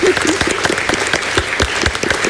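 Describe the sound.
Studio audience applause closes an entertainment quiz show, with a steady flurry of crisp, closely spaced claps that stays even throughout the short clip.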